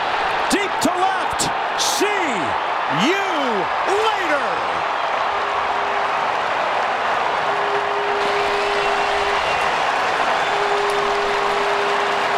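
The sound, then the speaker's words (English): A baseball stadium crowd roars after a three-run home run by Ryan Zimmerman of the Nationals. The sustained, loud cheer is dense throughout, with a few rising and falling whoops standing out in the first seconds. “You can hear the crowd going crazy in the background, and they were not done serenading Zimmerman just yet.”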